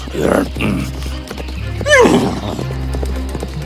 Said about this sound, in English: The loud neighing of my horse disturbed the sleeping giant, and he was furious.